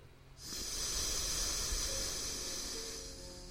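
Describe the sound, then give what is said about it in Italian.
Long, steady nasal exhale through the right nostril during alternate-nostril breathing practice, a smooth airy hiss lasting about three seconds with no talk over it. “inspiro, chiudo la sinistra, apnea, apro la destra, espiro.”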